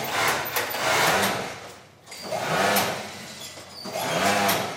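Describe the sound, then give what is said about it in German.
A sewing machine stitches swim and fitness wear, its rapid mechanical whir running in a few sustained bursts separated by brief pauses. “Seit etwas über einem Jahr näht die rundliche Frau Schwimm- und Fitnessbekleidung für die Firma Avex.”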